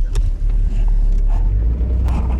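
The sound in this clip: Low, steady rumble of a car driving over rough, bumpy ground, with a dense, continuous drone and small jolts throughout. No one speaks.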